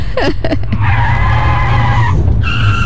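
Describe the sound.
A car's tires squeal loudly as it skids to a sudden stop: a sustained high-pitched whine lasting over a second, then a shorter second squealing tone, all over a constant low rumble.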